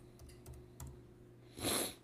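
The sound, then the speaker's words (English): A few quiet keystrokes tap irregularly on a computer keyboard, faint clicks in a hushed setting, followed by a short, louder rush of breathy noise. “Oh, type, damn you. Stupid computer.”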